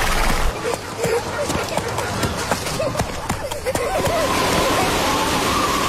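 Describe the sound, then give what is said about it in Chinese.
Hooves clip-clop irregularly as a horse is ridden, with scattered dull thuds over a steady background rush and faint voices. “蛟龙，我教你骑马，你坐稳了，缰绳是这样子拉的。”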